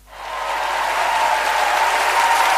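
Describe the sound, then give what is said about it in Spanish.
Audience applause for a performer's entrance rises quickly within a fraction of a second into dense, steady clapping, then holds at a loud, even level throughout without voices. “un fuerte aplauso”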